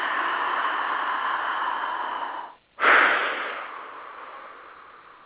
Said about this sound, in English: Let's do it together. Big breath.